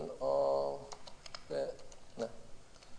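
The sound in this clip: Typing on a computer keyboard, soft quick key clicks scattered under a person talking.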